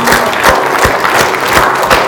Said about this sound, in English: Standing ovation. And how are you going to stop?